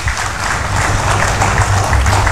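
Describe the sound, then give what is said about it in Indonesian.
Steady applause from an audience at a formal morning event, welcoming three speakers. Dense, continuous clapping holds at an even, fairly loud level throughout, with no distinct voices. “Tepuk tangan untuk 3 orang narasumber kita pada pagi hari ini.”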